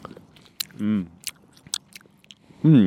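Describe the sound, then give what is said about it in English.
Chewing on a piece of Tropical Twist fruit-and-mint gum, with a few soft wet clicks and smacks from the mouth, broken up by short bursts of voice. “I'm going to try mine now. I stole it by accident. It's called Tropical Twist. It smells really good. All right. Gum tasting segment.”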